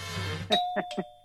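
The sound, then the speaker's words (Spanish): Doorbell chime rings three bright tones in quick succession, the first holding a lingering ring, over a faint low hum. “¿Un toque de timbre o no?”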